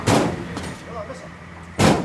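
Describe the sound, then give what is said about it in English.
Two heavy door slams as police shut the doors of an armored van, one at the start and one at the end, separated by a quieter stretch. “The police shut the van's doors and drive away.”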